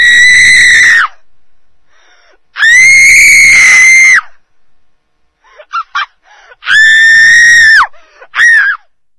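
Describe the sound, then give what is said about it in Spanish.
Loud, high, piercing screams: three long sustained cries, with a few short, sharp yelps between them, and no talk. “una vergüenza que se merece por lo menos otro grito tan grande o más de lo que hemos escuchado antes”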